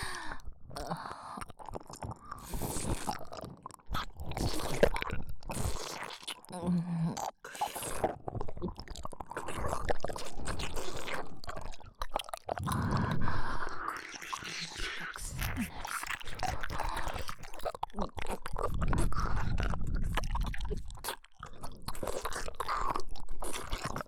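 Wet sucking, slurping and chewing mouth sounds: a long, uneven run of many moist smacks and squelches that come and go in bursts, with brief pauses.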